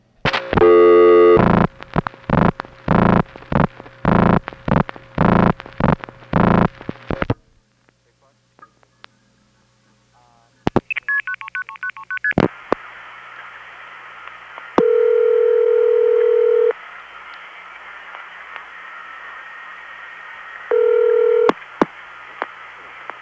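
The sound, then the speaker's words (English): Telephone call from a Crossbar 5 line on Long Island, through a Hempstead crossbar tandem and a 4A toll switch in Norway, Illinois, to a No. 1 ESS: a fast run of dialing tone bursts, then clicks, short switching tones and steady hum. “from my Crossbar 5 line in Long Island, to Hempstead Crossbar Tandem, 5166, to the Norway, Illinois, 4A, 8151, to a number 1 ESS.”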